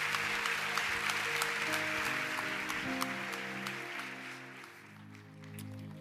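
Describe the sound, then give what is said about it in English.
A church audience applauding, with broad, steady clapping over sustained instrumental chords. The clapping eases off near the end. “Can we put our hands together and welcome Edgar Rivas?”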